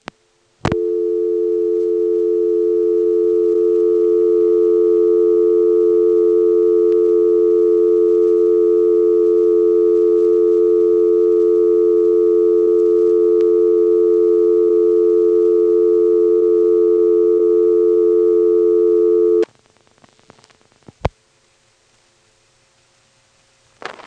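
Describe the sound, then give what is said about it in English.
A telephone dial tone times out: a loud, steady, continuous tone holds unchanged for about nineteen seconds, then cuts off abruptly into near silence broken by a brief click or two. “Here's the sound of dial tone timing out.”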